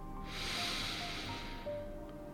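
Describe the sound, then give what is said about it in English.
One slow, deep breath drawn in through the nose or mouth, a soft breathy hiss that swells and lasts about two seconds before easing off. “Deep breath in.”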